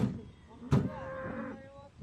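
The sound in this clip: A cow moos as it rejoins a cattle herd after a long trek across a rocky, gravel-strewn area. One drawn-out, low, wavering call rises over soft background noise, with a short thump just before it.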